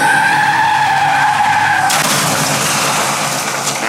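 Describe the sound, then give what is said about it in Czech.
A Porsche skidding and crashing in Aspen, as a sound effect: a loud, sustained tire squeal with strong whining tones cuts abruptly into a harsh, noisy burst that carries on to the end. “bourá se svým Porsche v Aspenu”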